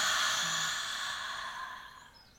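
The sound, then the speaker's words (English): A deep breath released as a long, airy exhale during a guided breathing exercise, starting loud and fading steadily, with a soft sigh-like quality. “So take a deep breath in and hold it and release.”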